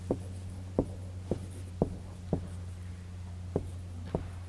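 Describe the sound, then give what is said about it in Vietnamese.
Someone writes Chinese characters in a series of seven faint, short strokes at uneven intervals over a low, steady hum. No one speaks. “Mình viết chữ Tàu rồi mình giải thích cho các vị.”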